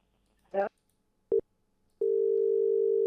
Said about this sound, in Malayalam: Line കട്ടായി പോയി തോന്നുന്നു.